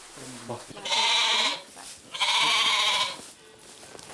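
A billy goat bleats twice while being put into a stall. Each call is long, loud and wavering and lasts about half a second or more, with a short quiet gap between the two.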